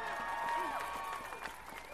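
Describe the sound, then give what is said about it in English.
Applause from a crowd at a gathering of domestic violence service workers, a steady wash of clapping that runs through the whole clip at an even, moderate level. “Give Simone a big round of applause.”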